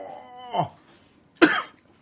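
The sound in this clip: Coughing after a small sip of a sweet, grape-scented drink that smells close to juice: two harsh, abrupt coughs separated by a pause, with a third just starting at the very end.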